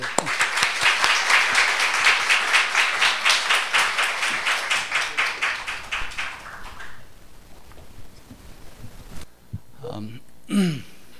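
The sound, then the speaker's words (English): An audience applauds to welcome a speaker, dense steady clapping for about seven seconds that thins out and fades. A voice then begins to speak. “let us welcome him with big hands”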